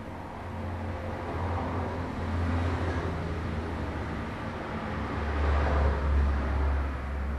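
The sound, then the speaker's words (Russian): Low mechanical rumble of a large freight elevator carrying people upward: a continuous, steady droning hum with a deep low-end drone that swells slightly toward the end, with no voices. “Первая команда уже поднимается в лифте.”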